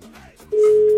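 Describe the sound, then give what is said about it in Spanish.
A telephone ringback tone sounds while a call is dialed to a daughter. A single loud, steady pitch starts about halfway through and holds unbroken to the end, after a quieter, fainter opening. “le estoy marcando a mi hija de en medio.”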